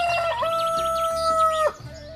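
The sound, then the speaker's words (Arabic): A rooster crows out on the threshing floors in one long, loud, steady call with a bright, held tone that cuts off sharply near the end, leaving a quieter background. “خرج الديك في جولة في البيادر وهو يغني”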